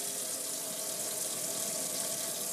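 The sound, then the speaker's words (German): Used kitchen utensils are washed up at a sink under running water while soup cooks. The steady hiss of water continues evenly throughout, with no voices. “Ich wasche jetzt da einfach mal ein paar Sachen ab, die wir nicht mehr brauchen.”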